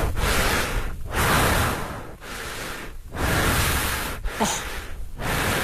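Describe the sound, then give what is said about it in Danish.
Heavy, rasping breathing of someone walking very slowly at almost 6,000 metres altitude, loud, labored breaths in a steady rhythm, each long breath separated by a brief pause. “det jeg lige vil vise jer, det var, hvordan vejrtrækningen lyder, når man kommer op i næsten 6.000 meters højde, og man faktisk går virkelig, virkelig langsomt.”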